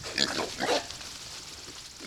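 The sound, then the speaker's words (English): Faint, short grunts and squeals from about a dozen small pigs running around a fenced farm area in south central Missouri. A few brief bursts stand out against a quiet background. “About a dozen small pigs are running around a fenced area on DL Farms in south central Missouri.”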